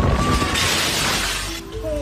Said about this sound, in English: The video shows the officer hunkered down amid intense rain and wind when the glass comes crashing down just feet from his feet.